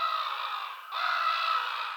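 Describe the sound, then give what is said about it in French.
A sound effect of seagulls crying: two long, raspy, harsh bird calls follow each other with a brief break between them, heard alone. “Ça sonne plus comme des mouettes qui crient « Donne-moi tes frites! »”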